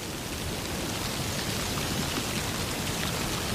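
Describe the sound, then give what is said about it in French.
Light, scattered rain falling on a pile of leaves beside a ditch, a steady, dense hiss of patter that stays even throughout, with no voices. “Sur un amas de feuilles près d'un fossé. Une fine pluie éparse s'écoule.”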